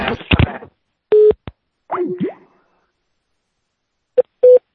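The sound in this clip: Steady telephone beeps from a call: one longer tone, then two brief ones near the end, separated by a few short, irregular bursts of other sound and silence.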